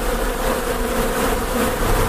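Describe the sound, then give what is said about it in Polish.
Honeybees buzz at an urban apiary, a dense, continuous swarm drone with no pauses, steady in loudness and heard alone. “Pszczoły ignorują nas i zajmują się tylko i wyłącznie swoją pracą.”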